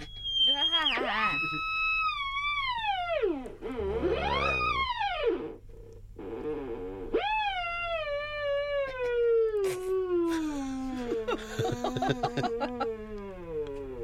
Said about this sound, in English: What you will hear is a horrible noise. Around about 10 or 15 seconds as I try and calm my nerves to calm the theremin down to a silence.